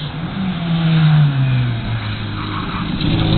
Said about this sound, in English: And what have we got now? Porsche 944